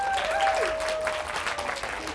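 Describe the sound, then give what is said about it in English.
Audience applause welcomes a children's author to the stage at a library event. Dense, steady clapping fills the whole stretch at a fairly even level, with no voices over it. “I'm delighted to welcome you to this brilliant event with the amazing Jonathan Mears. Put your hands together.”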